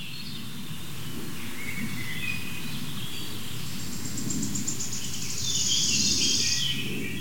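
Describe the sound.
A bird calls near the microphone with quick, high chirps and trills that grow louder toward the end, over a steady insect-like chirring and a low rumble.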